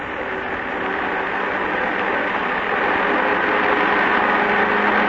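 The third engine of a multi-engine propeller aircraft starts up, giving a steady droning hum with a mechanical buzz that grows slightly louder partway through.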